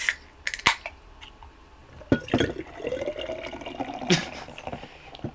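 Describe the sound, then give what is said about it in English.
Beer pours from an inverted surge pour can: a sharp pop comes first, followed by a trickling, fizzing fill with scattered drips, fairly quiet. “pop it open, and it says surge pour. And then just let it happen.”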